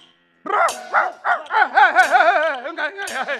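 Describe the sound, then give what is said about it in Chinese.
A stray dog barks in a fast run of high, warbling yips and whining barks that begins after a short silence and continues in quick succession, loud and alone. “原来是一只流浪犬呢。”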